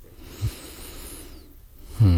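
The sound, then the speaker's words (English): A person takes a breath, a soft airy inhale and exhale with a brief snort-like puff early on. A voice starts up loudly right at the end. “Let me just take a breath for a sec.”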